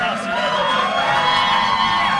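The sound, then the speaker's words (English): A crowd at the Minnesota State Fair cheers and whoops: a dense, continuous wash of shouting voices that stays loud and steady throughout. “Say hello to the crowd here at the Minnesota State Fair. Hello, crowd at the State Fair.”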